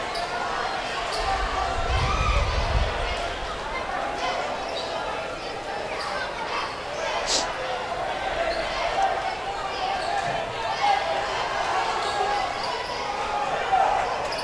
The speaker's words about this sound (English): There you go, good. Keep your dribble.